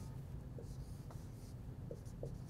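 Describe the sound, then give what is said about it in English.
Faint pen scratches as someone draws a diagram: a few short, soft strokes sitting just above a low background hum. “So I'm going to draw just another one just to highlight.”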